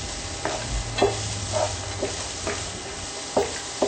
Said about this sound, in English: The peppers will start to melt down and become a little bit more clear, and the cashews will start to brown lightly. I hear the cashews starting to pop,